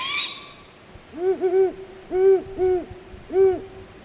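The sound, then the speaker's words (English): Juvenile owl calling at night around 11 p.m., a few short, hollow, low hoots, some paired closely and others spaced apart, loud and clear over a faint, quiet background. “Days later, about 11 p.m., we hear the juvenile calling again. In fact, these entreaties can go on for weeks.”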